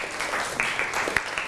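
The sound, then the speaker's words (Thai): Classmates applauding in a classroom: steady, dense clapping with a few sharper individual claps standing out, moderately loud throughout. “ปรบมือให้กับเพื่อนหน่อยครับ”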